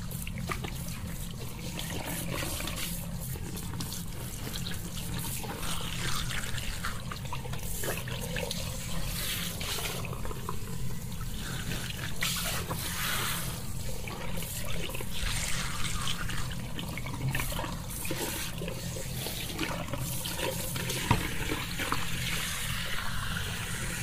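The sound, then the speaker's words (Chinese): Tap water runs continuously while a child's hair is rinsed, a steady, even splashing flow that stays at the same level throughout with no talking. “先冲水，冲完我告诉你。”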